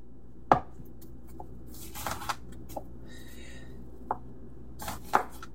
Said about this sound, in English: Now over here, I have 1 onion and I'm going to just slice it across the roots.